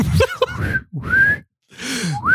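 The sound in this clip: A person whistles a few short, rising notes, broken up by breathy vocal sounds.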